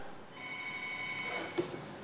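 A telephone line rings on an unanswered call, a thin, steady electronic tone sounding faintly over line hiss, with a short click near the end.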